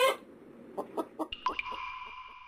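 Chicken clucks: an opening burst and three short, evenly spaced clucks, followed by a sustained bright tone that holds to the end.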